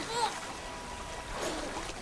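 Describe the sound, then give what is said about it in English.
Water splashes and sloshes as children in inflated red suits break the surface and bob on the waves. Two soft surges of watery wash rise and fall at a faint level. “The children break the surface and bob on the waves like huge tomatoes.”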